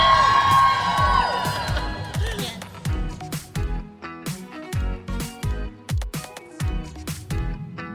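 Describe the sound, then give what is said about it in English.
A live studio audience at a women's event cheers and whoops for about two seconds. The crowd noise then fades under a steady, thumping rhythmic beat with sharp percussive hits. “And this studio audience is the best ever.”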